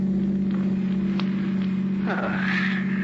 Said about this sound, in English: And later, as you're driving Neil down the coast toward New York.